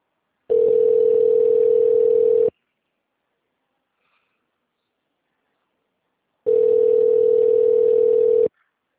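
Telephone line tone as a call is being transferred, two long, steady mid-pitched tones of about two seconds each, separated by a few seconds of silence.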